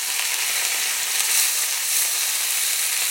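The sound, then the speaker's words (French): Meat medallions browning in a hot pan give off a loud, dense, continuous sizzle, an even frying hiss with no talking. “Du coup, maintenant, je vais faire dorer les faces et on devrait être bon au niveau cuisson.”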